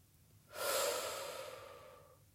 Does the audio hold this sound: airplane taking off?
no